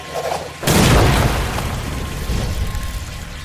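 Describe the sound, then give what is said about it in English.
Grenades exploding in a video game: a sudden heavy blast that swells into a long, loud rumbling roar, fading only slightly over several seconds, with no voices. “How many grenades you need? Two should do. Any more, you risk a collapse. Ready? Fire it all!”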